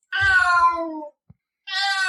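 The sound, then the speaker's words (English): A cat gives a sad, mournful meow. The first cry is long and drawn out and falls in pitch, and after a short pause a second loud meow begins and is cut off at the end. Faint low bumps sound under the first cry. “So it's just a sad cat's meow in between mailbag questions.”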